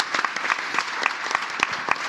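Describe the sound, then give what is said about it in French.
Audience applause from a crowd of many hands, a dense, steady wash of clapping with sharper individual claps popping out, moderately loud and continuing throughout without talk. “On peut applaudir ce gourou qui est Sylvain, l'anti-gourou qui est Sylvain Palais.”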